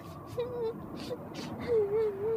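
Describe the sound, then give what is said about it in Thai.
A voice imitates a little bear crying in a children's story, with soft whimpering sobs that waver in pitch and come in short bursts before a longer wailing whimper. “เจ้าหมีน้อยโอ้ร้องไห้ทำไมจ๊ะ”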